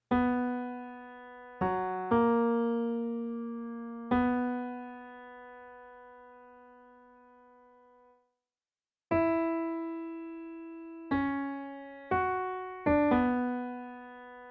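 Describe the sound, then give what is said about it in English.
Main melody of a TV series theme played alone: slow, sustained tonal notes, each struck and then fading, moving through a few pitches. A pause falls midway before the phrase resumes with quicker notes. No voices. “I just want to play the main part of the melody all by itself so that you can recognize it”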